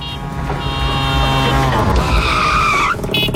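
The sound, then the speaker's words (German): Tires squeal in a skid over the loud, steady drone of a tuk-tuk engine, used as a jingle-style sound effect. The squeal grows more whistling toward the end before cutting off abruptly. “Jedes Mal, wenn das Tuk-Tuk durchs Programm fährt,”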